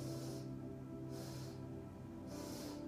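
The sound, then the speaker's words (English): Three evenly spaced, soft hissing breaths drawn in through the nose, each short and airy, over a steady low hum. “slowly exhale, breathe in through the nose 3 times,”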